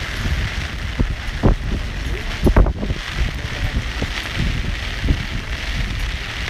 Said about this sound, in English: I'm not going to try and shelter this from the wind so you can experience the Irish elements.